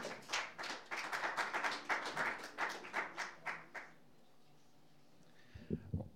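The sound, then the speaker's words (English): An audience applauds to welcome a solo performer at a live music evening: a few seconds of lively clapping with sharp, distinct claps that stops abruptly, followed by quiet. “He's done a great job helping with the sound setup. Give him a hand for that. And I'm not sure what he has in store, but give him a big welcome.”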